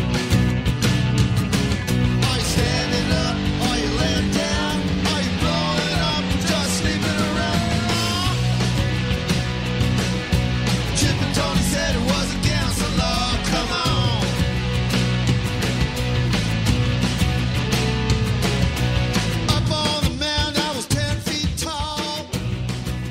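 Full-band rock music from a solo album plays loud and dense throughout, with steady drums and layered guitars and no talk over it.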